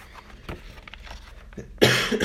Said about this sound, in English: Sorry, I got a little bit of cough this morning.